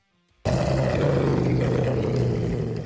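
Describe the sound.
A grey wolf's deep, rough growl bursts in after a moment of silence and holds loud and steady for over two seconds. The sound is noisy with a low tonal core and eases slightly at the end.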